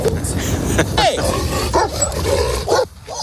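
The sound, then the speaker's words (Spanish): Dogs bark and yip at a passing rider, chasing and escorting the wheels. Sharp, repeated barks come with some whimpering over a busy, loud background, and people talk throughout. “Perros que le siguen, perros que le ladran, que lo escoltan o que casi acaban bajo las ruedas.”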